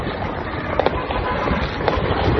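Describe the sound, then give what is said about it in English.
Fireworks going off at a protest where a police station is burning: a few sharp cracks and pops over a dense, continuous roar of crowd noise. “You got the fireworks going off in celebration of the police station burning down.”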